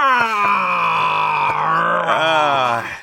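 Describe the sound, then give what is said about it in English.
A voice imitates the long groan of a squeaky chair, a loud, sustained moaning tone held for about three seconds that sags slowly in pitch and wavers near the end. “Yours like is like a long groan from a slowly dying banshee. It's like,”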